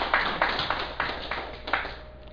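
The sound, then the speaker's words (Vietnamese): A few scattered, faint claps from an audience, sharp separate strikes instead of a full round of applause, spaced unevenly over two seconds. “Xin quý vị vỗ tay chúng ta.”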